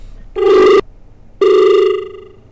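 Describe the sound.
A telephone rings twice for an incoming call during a live phone-in farming quiz programme. The two loud electronic bursts are steady in pitch and separated by a short gap, with no voices.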